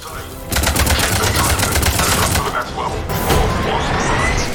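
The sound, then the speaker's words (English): Rapid automatic gunfire in a video game: a loud, dense rattling run of shots through most of the stretch, easing briefly before a second heavy burst. “They're being shot at a lot.”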